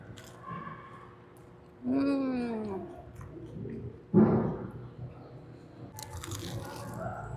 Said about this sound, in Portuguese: Olha como é recheado e a crocância desse negócio.